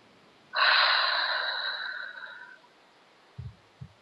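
A long, breathy exhale lasts about two seconds and fades gradually. Two brief low thumps follow near the end.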